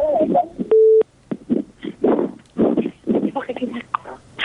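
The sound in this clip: A single steady telephone tone sounds briefly between stretches of talk as a radio call-in show connects its next caller. Voices speak before and after it.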